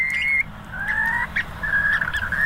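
A bird calls in a series of short, clear whistled notes at a fairly steady mid-high pitch, separated by brief gaps, over a low, soft background rumble.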